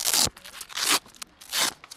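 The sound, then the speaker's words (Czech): Velcro straps being ripped open on an ageing simulation suit, a few loud, harsh rasping tears with short pauses and smaller crackles between them. “Je to spousta jakýchsi pásků, suché zipy.”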